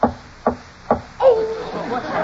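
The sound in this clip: Knocking from inside a roll-top desk, used as a radio drama sound effect. Three sharp, evenly spaced knocks sound, then a voice starts talking.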